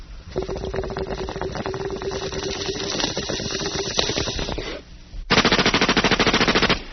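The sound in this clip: Machine gun sound effect: a long, steady stretch of rapid, rattling automatic fire, then a short pause and a louder, denser burst of fast, evenly spaced shots to the end.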